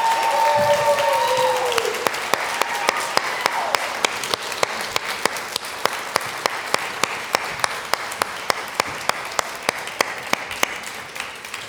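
An audience applauds to welcome the members of a panel on creating safe spaces for LGBTQ+ people. The dense, steady clapping of many hands holds at an even level throughout.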